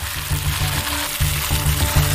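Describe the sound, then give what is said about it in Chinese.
Sichuan peppercorns and then dried chilies sizzle in hot oil in a wok, a loud, steady crackling hiss that runs throughout without speech. “起锅倒油，烧热后先下麻椒停留3秒，后下辣椒。”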